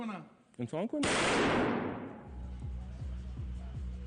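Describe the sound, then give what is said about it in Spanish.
A single loud gunshot is fired into the ceiling of a television studio. The sharp blast leaves a long, fading tail, and people talk just before the shot and again after it. “Tras su entrenamiento en directo, este presentador dispara un tiro al techo del estudio.”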